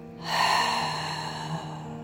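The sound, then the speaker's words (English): A gentle breath is drawn in and slowly released, a soft airy swell that rises quickly and then eases off over steady, faint sustained tones, with no talking. “Gentle breath in. Exhale to release.”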